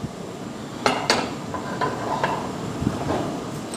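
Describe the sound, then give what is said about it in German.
Spätzle being plated, with a few sharp clinks and knocks of a utensil against a plate over soft scraping and rustling. The sounds are irregular and there is no talk. “Gut, wir richten an. Spätzle auf dem Teller.”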